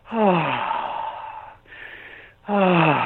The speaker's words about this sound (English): Well, you're supposed to take nice deep breaths and make lots of noise doing it, so I was trying to get the noise right.